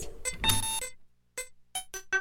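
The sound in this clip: Electronic keypad beeps sound as an entry code is typed at a building door: a longer tone burst, then a few short, sharp beeps in an uneven rhythm, with no one talking.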